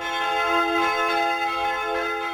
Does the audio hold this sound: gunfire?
no